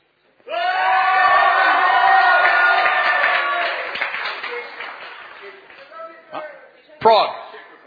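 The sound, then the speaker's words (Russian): A crowd of Israeli fans shouts and cheers at a host's request: one loud, sustained roar of massed voices that slowly fades after a few seconds, then a short burst of shouting near the end. “Where's Israel? Stand up, Israel. Где? Встань, Израиль. Israel. Israel. Yeah. Come on, shout, Israel. Shout. Кричите, кричите.”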